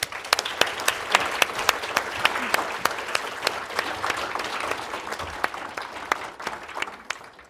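Audience applause greets a professor arriving to give an annual Oxford lecture on disability: dense, steady clapping that fills the whole stretch at an even loudness, with sharp individual claps standing out.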